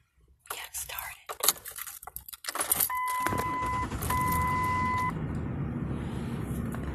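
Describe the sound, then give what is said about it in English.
Keys jangle and clatter inside a pickup truck at night, then the engine rumbles steadily while two sustained electronic chime tones sound in turn. Faint voices murmur in the background. “we're in a pickup truck at 12:35 at night.”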